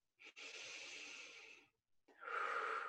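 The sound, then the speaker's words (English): Slow, deep breathing from a person lying down during a guided relaxation exercise: two long, airy breaths, each a steady soft rush of air, separated by a short pause. “Breathe in and exhale into gravity.”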